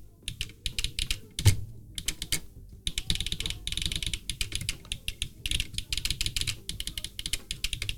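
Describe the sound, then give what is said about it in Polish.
Clicking of a key strip device: many small, crisp clicks in a dense, uneven stream, with one sharper, louder click near the start and brief pauses between runs. “O, ta listwa mniej więcej wydaje z siebie takie dźwięki.”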